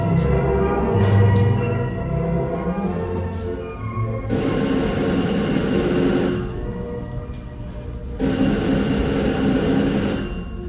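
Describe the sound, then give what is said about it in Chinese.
A telephone rings in a radio drama, in two bright, buzzing bursts of about two seconds each, separated by a pause, over a steady low rumble. “电话又来了”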